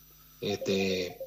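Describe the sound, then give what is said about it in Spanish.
A telephone ringing during a radio phone interview: a short electronic ring made of two bright, steady tonal pulses back to back, clearly audible over the line. “Sí, lo está distrayendo una llamada, ¿no? Porque lo estamos sintiendo acá con el operador”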